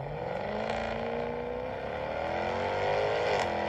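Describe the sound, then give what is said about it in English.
Engine drone from a 575-horsepower supercharged V8 Jaguar F-Type R sports car: a steady, harmonic-rich roar that sags slightly midway, then climbs again in pitch toward the end, with no talking. “What feeling do you get when you drive the 575 horsepower supercharged V8 Jaguar F-Type R?”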